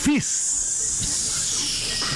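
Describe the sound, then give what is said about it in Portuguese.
A can of Fizz soda is opened with a hiss, a sustained bright fizzing that carries on steadily after a short opening burst. “Fizz. É o refrigerante do grupo Heineken. Já imaginou a latinha abrindo só de ouvir o barulhinho da latinha? Olha, olha. Só de ouvir esse barulho dá vontade de conhecer.”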